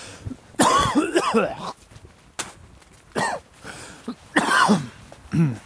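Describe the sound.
Whooping cough in the winter season: several harsh, rasping coughing bursts separated by pauses, along with throat clearing, with no speech.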